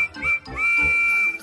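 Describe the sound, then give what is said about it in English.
Percy, the small green tank engine with four small wheels and the number six, blows his steam whistle: a clear high tone that sounds two short toots, then one long held blast, over low rumbling. “He is a small green tank engine with four small wheels and the number six on his cab. Percy has a whistle that sounds like this.”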